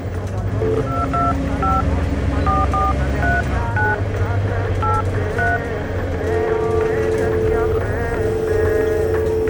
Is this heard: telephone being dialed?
yes